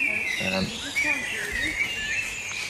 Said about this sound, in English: That's a dunnock that is calling in the background over here.